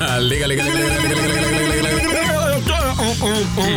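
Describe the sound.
A musical phone ringtone plays loudly and without a break, a busy melodic tune with layered tones filling the whole stretch.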